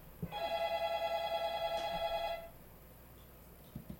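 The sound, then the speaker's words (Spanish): A telephone ringing with an incoming call: one bright, warbling electronic ring of about two seconds, followed by quiet with a few faint clicks. “Vamos a contestar esta llamada telefónica, queridos oyentes.”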